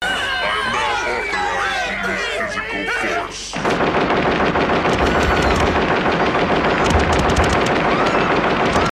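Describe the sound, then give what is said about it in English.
Gatling gun fire from a robot in a film scene bursts in suddenly after a few seconds of crowd chatter and voices, then continues as a loud, rapid, unbroken stream of shots to the end. “Ed 209, uh, you know, full metal jacket, guns out, pop, pop, pop, pop, Gatling guns this guy to death.”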